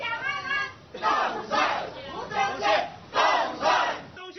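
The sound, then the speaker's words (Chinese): A market crowd shouts and cheers, wishing an election candidate victory, with several loud waves of overlapping voices rising and falling in turn. “进市场扫街时，现场预祝当选的声音此起彼落。”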